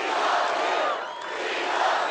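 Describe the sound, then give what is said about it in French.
Donald Trump supporters, mostly unmasked, cheer at a rally: a dense, steady crowd roar with shouts, dipping slightly at the midpoint before swelling again. “Ses supporters, la plupart sans masque, exultent.”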